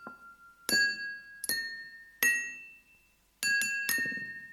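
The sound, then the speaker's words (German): Glasses clinking: a faint tone is followed by several bright, ringing glass strikes. Each strike decays slowly, and the last few come in a quick cluster. “Die Säge hört die Gläser klingen.”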